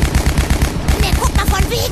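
Rapid machine-gun fire from MG 42 machine guns shooting at targets, a loud, unbroken stream of sharp, evenly spaced reports that keeps the same fast rhythm throughout.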